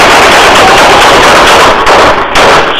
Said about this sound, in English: Shots fired! Still shooting him, man.